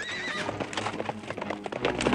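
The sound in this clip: A horse drawing a carriage gives a short, high whinny, then many quick clip-clop hoofbeats follow in a steady run.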